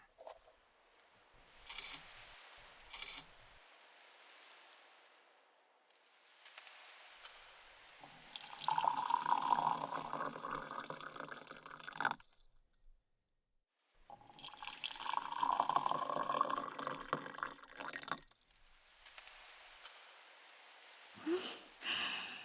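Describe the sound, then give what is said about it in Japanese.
Hot water for tea poured first into cups to cool and then into a small Japanese teapot holding tea leaves: two steady streaming pours of several seconds each, with a few light clinks before and after. “お茶の葉がびっくりしないように一旦お湯のみで冷ましてからお急須に移して。”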